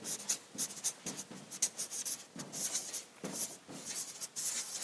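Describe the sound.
Handwriting with a pen: a steady run of many dry, scratchy strokes in short bursts, with small pauses between words. No voices are heard.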